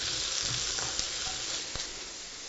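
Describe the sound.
Salted onions frying in a pan, giving a steady, dense sizzling hiss with a few faint pops and ticks and no talk.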